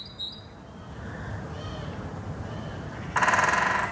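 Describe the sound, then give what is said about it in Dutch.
A great spotted woodpecker drums a loud, rapid burst of knocks near the end. Earlier, a great tit gives a few faint, high notes over soft background hiss. “Ze nam een duet op van Grote Bonte Specht en Koolmees.”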